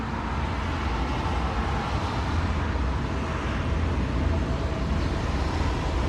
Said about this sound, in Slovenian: Zvok tramvaja v zavoju.